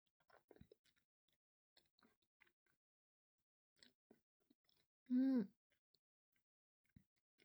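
Someone is eating meat, with faint, sparse, moist clicks and smacks scattered through a quiet stretch and one short hummed vocal sound in the middle.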